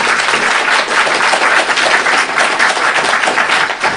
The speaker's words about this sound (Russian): давайте мы поприветствуем наш планетарий, похлопаем ему.